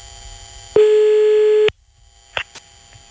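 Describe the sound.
A phone line tone sounds while a call is being placed: one steady, buzzing tone holds for about a second, then cuts off, followed by quiet and two short clicks. No voices.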